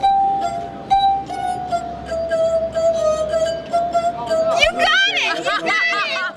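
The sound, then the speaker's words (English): A sustained singing tone from fingers rubbing the rims of musical glasses holds a nearly steady pitch that sinks very slightly, with faint murmuring underneath, before a voice starts talking over it. “If the sound made by rubbing the fingers on the rims of glasses seems like a barroom trick, consider that musical glasses have been played for centuries.”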